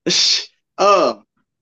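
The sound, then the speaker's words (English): Dog snoring in two breaths: a hissy, airy intake, then a voiced, rumbling exhale with a wavering pitch. Both are clear and moderately loud, separated by a short pause. “I didn't know what that sound was. My dog back there snoring.”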